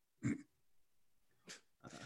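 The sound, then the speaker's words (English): A person snorts once, a short nasal grunt, followed by quieter breathy sounds in an otherwise hushed moment. “Sorry, you probably heard me snort.”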